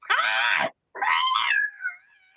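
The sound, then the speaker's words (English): Cat meowing: two loud meows with a brief pause between them, the second longer and trailing off faintly. “I think this cat and I are coming to an agreement.”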